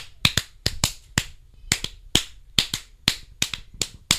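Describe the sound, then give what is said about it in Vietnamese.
Finger snapping keeping time as a flamenco audience would, many crisp, sharp clicks in a quick, slightly uneven rhythm, heard alone without talk. “họ có thể búng bằng ngón tay như này”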